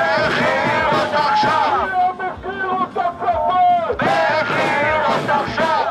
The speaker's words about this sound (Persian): همزمان با شکست مذاکرات آتش بس روز شنبه در تل آویو، هزاران اسرائیلی با برپایی تظاهراتی گسترده خواستار آزادی فوری گروگان‌های اسرائیلی از دست حماس شدند.